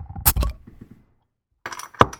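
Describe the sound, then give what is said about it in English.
A 22-ounce bottle of milk stout being cracked open: a few sharp clinks and a crisp metallic pop, then a quiet pause before another short burst of clinking. “The ABV on this beer is 5.8%. The IBUs are 28. I'm going to crack it.”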